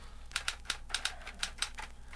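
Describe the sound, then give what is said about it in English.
Typewriter keys clack as someone writes on a typewriter in the other room: many sharp, irregular strikes in short bursts, fairly faint, with no voices. “That's him in the other room, writing.”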